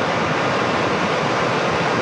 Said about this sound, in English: Our little creek in Cougar Creek is raging again.